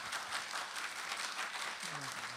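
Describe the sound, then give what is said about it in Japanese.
Applause from a lecture audience, a steady faint wash of many hands clapping throughout, with a voice briefly audible near the end. “それでは、畑平様に盛大な拍手をもう一度よろしくお願いいたします。”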